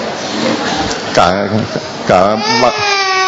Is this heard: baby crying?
yes